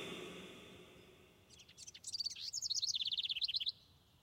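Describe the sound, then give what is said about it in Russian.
Birds chirp at dawn outside at a children's summer camp: a faint hiss gives way to a quick, high-pitched run of many short chirps, soft and steady, with no voices. “О, птицы уже проснулись.”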